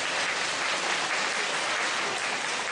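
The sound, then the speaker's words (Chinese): Audience applause: steady, dense clapping from a crowd that holds at an even level throughout the short stretch, with no voices. “借口要吃素了，大家鼓掌鼓励他。”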